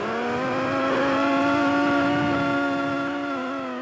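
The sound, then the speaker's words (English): Two enormous chunks of glacier ice rubbing together, giving a loud, steady, buzzing drone rich in overtones that holds nearly level in pitch throughout, alone with no talk. “This is the sound of two enormous chunks of ice rubbing up against each other.”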